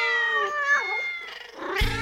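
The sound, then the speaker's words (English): Cats meow in a long, loud, wavering call that bends in pitch, followed by a shorter, rougher meow. “Well, the cats are awake.”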